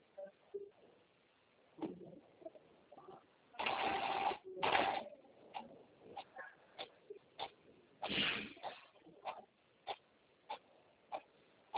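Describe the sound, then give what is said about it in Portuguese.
A printer runs a document, giving a few short mechanical clicks and ticks and two longer whirring bursts of feed noise. “Imprimir. Imprimir. Vai. Pronto.”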